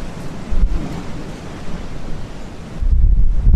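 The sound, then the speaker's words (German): Wind and Atlantic Ocean waves roar on the open deck of a rocking ship in strong wind. A steady low rumble with gusts buffets the microphone and swells louder near the end. No voices. “Aber das, du hörst jetzt, das ist der Atlantik.”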